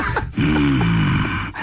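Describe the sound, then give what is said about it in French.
Heavy breathing close to the microphone: loud, rough, drawn-out breaths with brief gaps between them, each breath carrying a low, snore-like rasp. “Chut, on est là. Chut. Tu sens ma respiration.”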